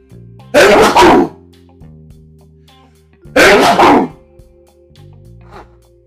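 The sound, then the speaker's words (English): Two loud, explosive sneezes from someone with allergies burst out a few seconds apart, each a short, harsh blast of breath over a soft, steady tonal background. “Okay, I am so sorry, my allergies are real. Picking up on me here.”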